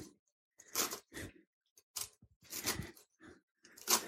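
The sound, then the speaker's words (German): A knife chops fresh celery greens in crisp, crunchy bursts, several quick cuts in irregular groups with short silences between, fairly faint and with no talk. “Dann schneide ich jetzt noch kurz das Selleriegrün.”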